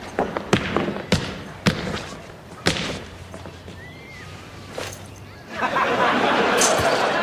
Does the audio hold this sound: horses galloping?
no